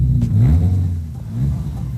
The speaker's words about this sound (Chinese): 你们看这部车多么先进。 现在发动，